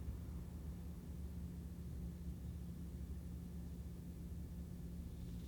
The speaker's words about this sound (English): I hope that my refrigerator on isn't causing too much like interference with my audio. I'm gonna turn that fucking refrigerator off when I'm recording.